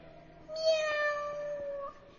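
A single drawn-out cat meow, a clear tonal cry lasting more than a second that holds a fairly steady pitch before trailing off, heard alone over faint background hiss.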